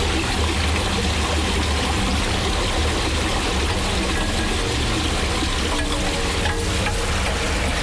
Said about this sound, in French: La raison pour laquelle on mesure des débits d'eau ici dans cet égout, c'est qu'on veut quantifier la quantité d'eau qui arrive du haut de jette vers le bas